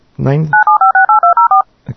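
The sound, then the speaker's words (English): Telephone DTMF dialing tones generated in audio editing software play as eight short, evenly spaced beeps, each a steady two-pitch tone. A voice speaks just before the sequence and briefly again after it. “I have now generated telephone dial tones.”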